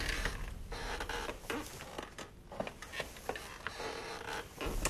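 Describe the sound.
A wooden rocking chair creaks among antique furniture, a faint, continuous series of irregular dry creaks and clicks with no voices.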